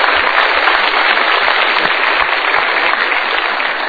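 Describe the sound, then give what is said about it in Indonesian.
Studio audience applause: dense, continuous clapping from many hands, loud and steady for about four seconds with no break. “Super, kita berikan tepuk tangan dulu.”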